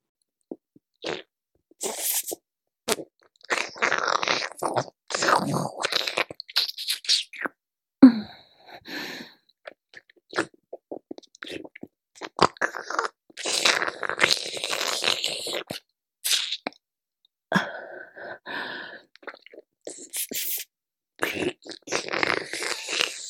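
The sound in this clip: Crunchy food being bitten and chewed: many irregular, crisp crackling bursts in quick succession with short pauses between them. No speech.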